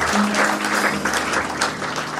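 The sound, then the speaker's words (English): Applause from an audience at a church service, dense steady clapping that holds at an even level throughout. “A round of applause.”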